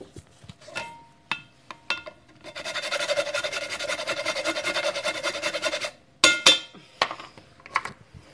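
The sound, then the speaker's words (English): Fresh nutmeg grated into morning coffee: a steady, dry rasping scrape lasting a few seconds, with scattered clinks and knocks before and after. “Hey, do you want to hear the nutmeg being grated into my morning coffee?”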